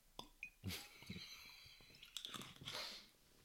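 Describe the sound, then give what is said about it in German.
Someone takes a quick drink: soft, wet mouth sounds of sips and swallows, a few short gulps and smacks with breaths in between, quiet and close. “Ich glaube, ich muss schnell kurz was trinken.”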